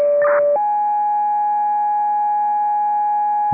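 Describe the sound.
Radio dispatch alert tones paging a medical unit: a short lower tone with a brief warbling burst, then a single long, steady, higher tone lasting about three seconds, alone and clear.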